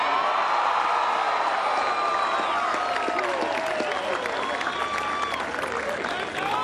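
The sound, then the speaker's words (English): Crowd applauding and cheering at a parade for the Fremantle captain: dense, continuous clapping with shouts and whoops layered over it throughout. “Give it up for Alex Pearce, the Fremantle captain.”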